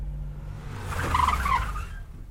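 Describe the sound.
A car pulls up and stops on a street at the second lamp post: a low engine rumble swells, a short squeal rises in the middle, then the engine settles back to a quieter idle.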